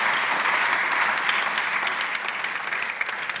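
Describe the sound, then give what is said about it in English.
Steady audience applause at a dinner event: dense, continuous clapping that holds an even loudness from start to finish, with no single voice standing out. “And I want to please a round of applause.”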